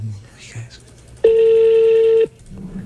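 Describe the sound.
A telephone tone sounds as a number is called: one loud, steady beep lasting about a second, with people talking before and after it.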